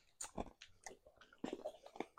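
A dog eats a piece of food, making quiet, wet chewing and biting sounds. Several crunchy bites come in irregular bursts, soft throughout.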